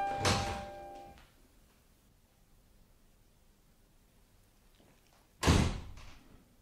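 A door is handled in two loud bursts: a clattering thud with a brief ringing edge, then a long quiet stretch before a second heavy, abrupt knock near the end.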